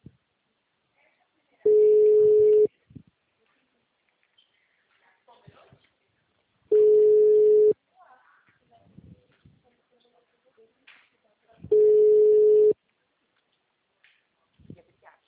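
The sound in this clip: A telephone ringback tone plays while a caller waits for an answer. There are three steady, low, one-second beeps spaced about five seconds apart, with faint voices and small noises in the gaps between them.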